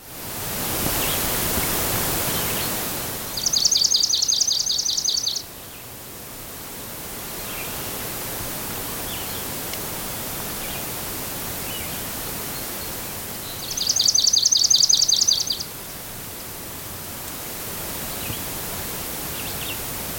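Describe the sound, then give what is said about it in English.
A field sparrow sings two high, rapid trilled songs, each lasting about two seconds and separated by a long gap, over a constant soft hiss. “Field sparrow.”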